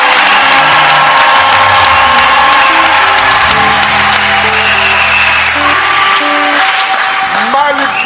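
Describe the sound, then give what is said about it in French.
A church audience clapping and cheering for God: loud, continuous crowd noise with sustained musical tones beneath it and no break throughout. “Acclamons pour notre Dieu.”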